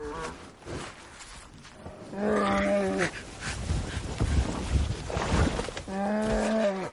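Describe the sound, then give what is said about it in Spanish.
A bear mauls a man and drags him in a wilderness survival scene. Two loud, deep growling roars stand out over continuous rough thrashing and rustling. “El oso le desgarra la casaca de un mordisco y lo arrastra con la boca. Le pone una pata encima. Le acerca el hocico a la cabeza y le huele.”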